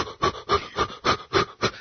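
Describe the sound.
A voice imitates heavy panting breaths during childbirth: six quick, evenly spaced, forceful huffs in a steady rhythm.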